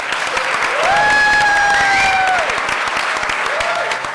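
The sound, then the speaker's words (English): Audience at the Science Museum applauds with steady, dense clapping throughout. A sustained whistle rises over the clapping in the middle and then fades. “Before you go off, I'd love you to give a warm round of applause and thank you to our guests.”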